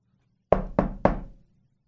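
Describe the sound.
Three sharp knocks on a door, evenly spaced and loud, each fading quickly, with silence before and after.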